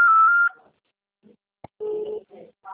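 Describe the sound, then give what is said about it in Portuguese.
Telephone dialing tones while calling a colleague: a short steady electronic beep, a pause, a sharp click, then a few more brief tones with gaps between them. “Oh, dá um toque pro Guilherme.”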